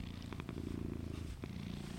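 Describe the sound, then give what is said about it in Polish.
A cat purring steadily, a low, even rumble heard alone, with a few faint soft ticks over it. “A ten drań mruczy cały czas. Wszystkie te koty są takie, że wystarczy, że się je dotknie, to już mruczą”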